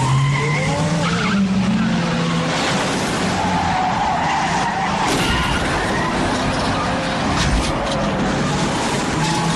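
A car accelerates hard with its tires skidding. A loud, continuous roar of engine and squealing rubber runs unbroken from start to finish.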